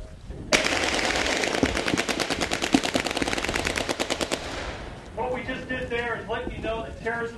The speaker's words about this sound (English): Some of the attacks come as a surprise to the audience, as when four men in black rushed out and gunned down three dummies at a mock cafe.